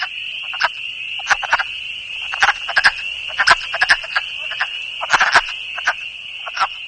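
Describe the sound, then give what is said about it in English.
Wood frogs call with many short, clucking chuck-chuck notes in irregular clusters over a steady, high continuous background tone. “The wood frogs are making the chuck-chuck sound in the background.”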